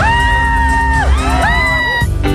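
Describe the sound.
A woman screams in a nightclub crowd with high, wavering shrieks that glide up and down in pitch, several sustained cries in a row, loud and close.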